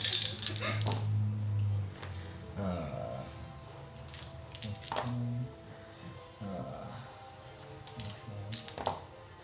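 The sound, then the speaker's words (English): Many dice clatter and rattle on a table during a tabletop role-playing game. Several bursts of quick clicking rolls come one after another, with faint talk in places. “He's counting a lot of numbers. He is. It's a lot of dice going on.”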